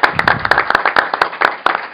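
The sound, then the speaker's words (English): Applause from an audience at an event after a film screening: many sharp, fairly loud claps in an uneven, rapid patter across the whole stretch, with no voices heard. “I think we should give them another round of applause.”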